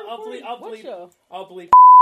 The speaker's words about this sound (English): I'll bleep. Don't say it again! It's another beep I have to make!